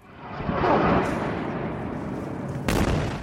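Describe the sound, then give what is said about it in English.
Bombing in Jabalia, northern Gaza, during the war: a dense, sustained roar of blasts and rumble, capped by one sharper, louder burst near the end. “It's October 9th. Jabalia in northern Gaza is being bombed.”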